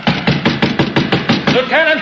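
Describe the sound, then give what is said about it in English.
Hammer blows drive a golden nail into a fort's wooden name sign: many quick, evenly spaced knocks in a steady rhythm, followed at the end by a short vocal cry. “And now, as I pound this golden nail...”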